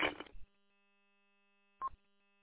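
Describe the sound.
Telephone dialing: two short electronic tones, the first longer and the second brief, separated by more than a second of near silence.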